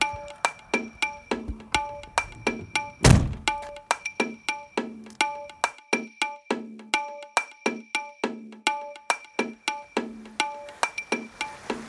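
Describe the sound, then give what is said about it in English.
A van door is slammed shut once, a single heavy thump early on. A fast, regular ringing tone repeats steadily before and after the slam. “I guess with that, there's nothing really left to do but to close up the van here and get started.”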